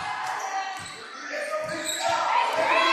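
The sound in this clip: A basketball is dribbled on the court during a women's game: a few low thumps of the bounce sound under voices.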